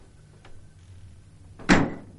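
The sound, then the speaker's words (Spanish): A refrigerator door swings shut with one short, muffled thud near the end. Before it there is only a low, quiet background, with no talking. “Cierra la nevera y se va.”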